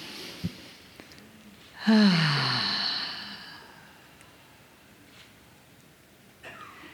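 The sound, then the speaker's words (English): One deep, breathy inhale during a guided relaxation breathing exercise swells sharply and fades over about a second and a half, with quiet stillness before and after. “So why don't you close your eyes and take a breath with me. Big inhale.”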